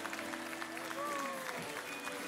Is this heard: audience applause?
yes